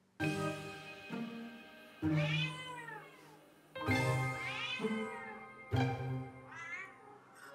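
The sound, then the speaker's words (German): A cat meows from inside its transport box on the way to the vet: several drawn-out, plaintive meows, each arching in pitch and falling away at the end, separated by short pauses. “in seiner Transportkiste auf dem Weg zum Tierarzt miaut er völlig anders, und zwar so.”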